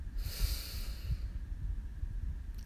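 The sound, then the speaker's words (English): A long, slow breath in a guided breathing exercise, heard as a soft airy hiss that lasts about a second, then fades into a low, steady rumble. “Breathe in and out. Ah. Breathe in”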